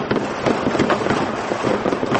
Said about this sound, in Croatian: Veliki broj vatrometa i petardi obeležili su posljednje i prve minute 2012. i 2013. godine.